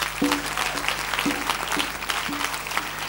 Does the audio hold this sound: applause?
yes

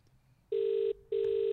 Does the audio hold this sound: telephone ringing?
yes

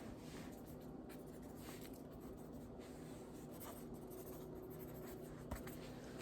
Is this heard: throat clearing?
no

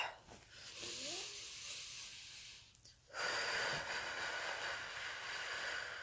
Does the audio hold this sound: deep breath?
yes

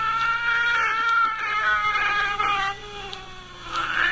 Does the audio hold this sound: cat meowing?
yes

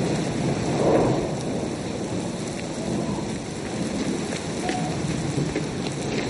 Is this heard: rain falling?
yes

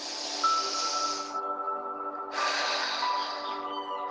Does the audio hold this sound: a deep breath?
yes

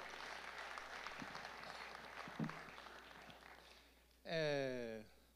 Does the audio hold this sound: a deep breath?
no

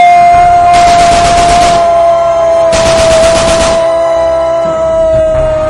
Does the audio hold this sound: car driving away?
no

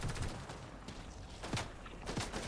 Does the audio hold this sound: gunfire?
yes

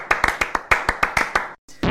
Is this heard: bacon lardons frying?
no

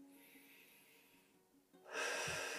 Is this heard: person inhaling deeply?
yes

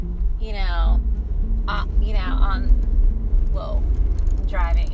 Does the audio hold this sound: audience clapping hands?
no

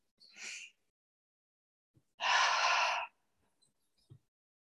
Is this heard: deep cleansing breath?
yes

